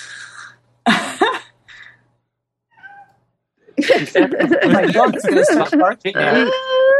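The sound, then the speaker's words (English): A cat meows in a three-car garage, giving a brief wavering cry near the start, followed by a person talking. “And yes, that was my cat. I'm in a 3-car garage and the cat is all the way on the other side of the garage.”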